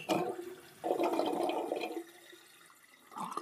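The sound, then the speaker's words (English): Faint flushing water used as a sound effect: a soft gush and rush of liquid that swells, fades to a low trickle, then briefly surges again. “I'm using all these watery sounds that are likely reminding you that you have a bladder and that it does, in fact, contain liquids.”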